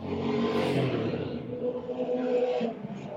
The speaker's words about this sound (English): No, that was someone's bike.